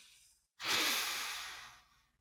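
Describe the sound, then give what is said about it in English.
Several people inhaling together on cue: one long, airy breath that starts abruptly and fades gradually over about a second and a half, with no talk. “If nothing else, please take a minute to breathe with us.”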